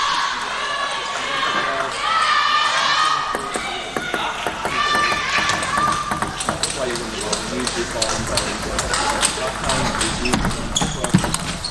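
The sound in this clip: Crisp ticks of a table tennis ball being struck and bouncing during a match, many quick clicks in rallies, heard beneath commentators talking.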